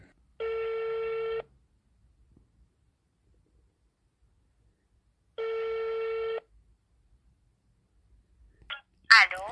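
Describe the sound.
Two long buzzing ringback tones from a telephone call being dialled, each lasting about a second and spaced several seconds apart in silence. A brief voice comes in at the very end.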